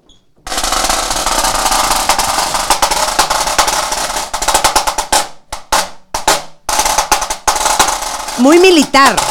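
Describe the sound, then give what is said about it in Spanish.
Rapid snare rolls on a high-tension Kevlar snare drum: dense, crisp rattling bursts and sharp strikes, played loud, breaking into short choppy phrases with brief pauses toward the end. “Que este es un snare. Snare drum. Snare drum de alta tensión. Esto que ven aquí es Kevlar. A ver, entonces enséñanos cómo suena.”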